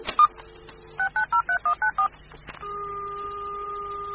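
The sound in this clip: Touch-tone telephone keypad beeps as a phone is dialed with its dial button: one short tone, then a rapid, evenly spaced run of six beeps, followed by a steady, unbroken tone. No talking.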